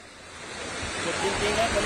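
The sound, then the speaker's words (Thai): Fast-flowing floodwater sweeping through a market at the Thai–Cambodian border, a broad, steady rushing hiss that grows gradually louder toward the end. “คือน้ำไม่สูงนะคะแต่ว่ามันเชี่ยวมากอย่างที่เห็นนะคะท่วมทั้งทางเข้าตลาดอบจท่วมในพื้นที่ตลาดหน้าสำนักงานตลาดอบจ”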